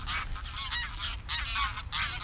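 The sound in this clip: A flock of geese honks as they take off from a muddy polder, loud and overlapping calls in a dense, continuous clamour over a steady low rumble.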